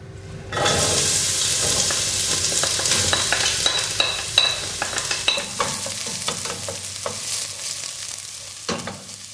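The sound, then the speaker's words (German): Onions frying in a pan sizzle loudly and steadily while being stirred, with many sharp scrapes and clinks of the spoon over the hiss after a brief quiet start. “Jemand brät Zwiebeln an. Und rührt um. Etwas anbraten. Und umrühren. Ich brate Zwiebeln an und rühre um.”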